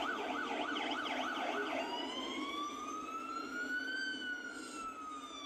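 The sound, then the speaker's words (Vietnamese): An ambulance siren wails loudly and continuously. Fast, repeating up-and-down pitch cycles give way to a slower, long rising sweep, with no voices. “Sau đó thì cửa xe cấp cứu đã đóng lại, tiếng còi dồn dập lại vang lên.”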